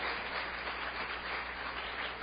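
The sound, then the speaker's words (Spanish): A church audience applauding during a sermon, a muffled, steady wash of clapping across the whole clip with no voices standing out. “Dele ese aplauso fuerte a Jesucristo, el Señor.”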